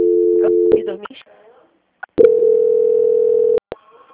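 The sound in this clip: Telephone tones play during a call transfer: a steady mid-pitched tone, then brief clicks and muffled sounds, then a second long continuous tone that holds for over a second before cutting off sharply.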